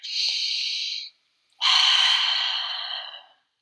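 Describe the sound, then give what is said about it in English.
Two long, airy breaths, a deep breath in and out, taken slowly during a calming exercise. The first lasts about a second; after a short pause, the second is louder and longer, with no talk. “Let's take a moment to inhale and exhale. Let's take a breath, okay?”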